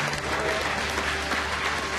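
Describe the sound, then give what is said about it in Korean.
Applause greets Lee Sedol's first win over AlphaGo after the program resigns the Go game: dense, even clapping that continues without a break for the whole stretch. “박수 네. 한번 줄까요?”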